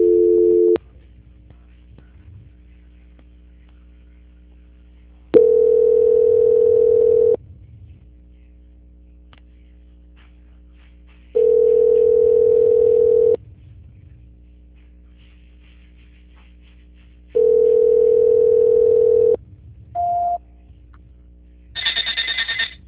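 Telephone line tones during a call transfer: a steady tone repeats in long bursts about every six seconds, then a brief beep and a higher-pitched tone close the sequence. No voices are heard.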